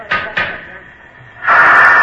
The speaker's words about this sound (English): it had 40 pounds of pressure in it, and that had to be blown out before the door could be opened